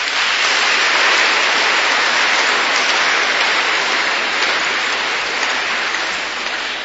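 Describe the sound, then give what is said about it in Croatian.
Sustained audience applause at a classical concert: a thick, even wash of clapping that stays loud throughout and eases off slightly at the end. “Još jedan aplauz molim.”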